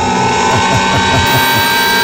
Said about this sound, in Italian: A questo punto, in questo programma, cosa succede regolarmente? Giriamo la ruota. Classico. Dai, vai.